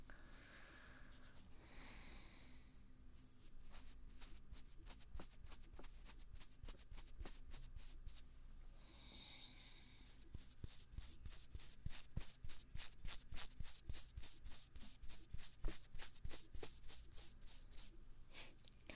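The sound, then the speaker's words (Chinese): A toothbrush scrubs a child's tongue in many quick, rhythmic strokes that stay faint throughout and grow somewhat louder and more regular in the second half. “把舌头伸出来。用牙刷刷刷你的小舌头”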